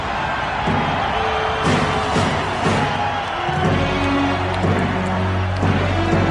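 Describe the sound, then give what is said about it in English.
Loud arena crowd cheering and roaring for Goldberg's wrestling entrance at the MGM Grand, a dense, unbroken wall of crowd noise that holds steady throughout. “Let's hear Goldberg entrance. Yes. You can see it, right? Yeah. MGM Grand.”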